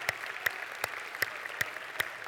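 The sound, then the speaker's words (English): An audience applauds at a church gathering welcoming students, staff and families. About six evenly spaced sharp claps stand out above a soft continuous wash of clapping. “come on, give them a great big hand.”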